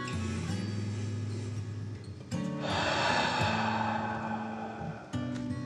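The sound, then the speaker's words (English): A long, deep breath drawn in and let out during a guided relaxation exercise: a soft, airy rush swells for a few seconds over a steady low tonal hum. “Take a deep breath in and out.”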